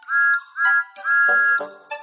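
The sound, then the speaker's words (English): Whistle of a small blue steam tank engine: three clear, steady, high blasts, the third the longest, then the brief start of another, loud and alone. “Thomas the Tank Engine, a cheeky little blue steam engine. He is the number one engine on Sir Topham Hatt's railway and has a whistle that sounds like this.”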